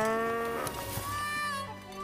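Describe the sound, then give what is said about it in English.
A cow moos as it passes by, a drawn-out, tonal lowing call with rich harmonics over a steady background that fades slightly at the end. “Another cow passes.”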